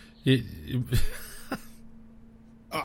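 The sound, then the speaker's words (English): A person clears their throat in a few rough, guttural bursts spread unevenly across the moment, with a final short rasp at the end. “sorry, got something in my throat.”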